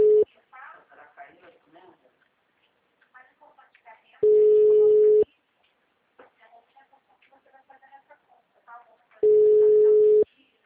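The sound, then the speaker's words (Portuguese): Telephone line tones after a dropped call: two long, steady beeps of about a second each, with the end of another at the start, separated by pauses filled with faint voices. “É, a ligação caiu. É, caiu a ligação.”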